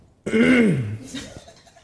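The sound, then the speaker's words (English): A single loud, voiced throat clearing with a gravelly, falling pitch that trails off into a quieter, rough rasp. “You cleared the shit out of his throat.”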